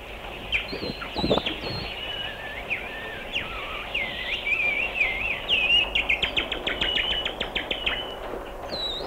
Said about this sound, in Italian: E all'improvviso, melodiosissimo, il canto degli uccelli.